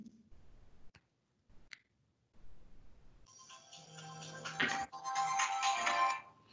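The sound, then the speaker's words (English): A phone is dialed for a demo call, with a few sharp clicks in near silence, then a loud, dense electronic ringtone that fills the second half and keeps going to the end. “Okay, so I'm dialing.”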